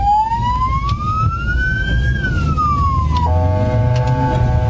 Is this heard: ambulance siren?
yes